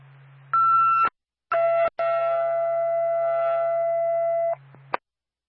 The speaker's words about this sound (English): Jefferson City Bethlehem Fire Department, second tone.